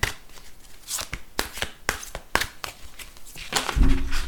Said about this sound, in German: Und das Kartendeck sind die Weisheitskarten für Lebensentscheidungen. Wie passend. Ich fange mal an zu mischen.